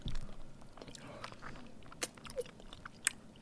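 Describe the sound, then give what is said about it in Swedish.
Teeth bite into and chew partly thawed frozen mango, making many soft, wet crunches in an uneven rhythm, with a few sharper snaps standing out. “det var ju synd, för egentligen det knakar ju så gott när man biter. Men nu har den ju tinat lite.”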